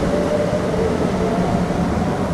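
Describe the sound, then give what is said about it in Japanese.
A moving train with a black, boxy carriage gives a continuous low, even rumble that holds steady throughout, with no distinct clatter or voices. “この列車も黒くて箱みたいだし。”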